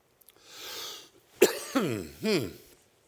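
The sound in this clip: Coughing from a tickle in the back of the throat: a soft breath in, then three harsh voiced coughs in quick succession, the last one a little longer.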